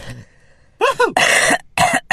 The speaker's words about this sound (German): Muss husten.